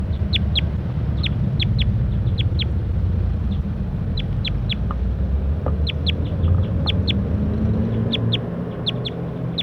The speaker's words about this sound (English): We're recording these for vocalizations of bird 169.